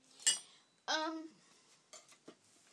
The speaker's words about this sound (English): Went and put a plate in this pan. On this plate, I have my pork chops. Interesting getting that out anyway.